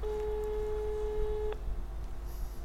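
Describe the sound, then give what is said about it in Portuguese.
A telephone line tone during a phone call: one steady, mid-pitched electronic tone held for about a second and a half, then cut off, leaving a low background hum. “Estamos a fazer um telefonema, é isso?”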